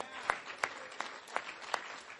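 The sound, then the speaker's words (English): Applause at an evening event to thank sponsors, heard as five soft, evenly spaced claps in a slow, regular rhythm over a quiet background. “Can I please have a round of applause to thank our sponsors?”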